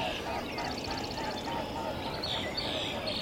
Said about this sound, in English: A pair of mute swans flying by. Not so mute. Yeah, that sound is their wings.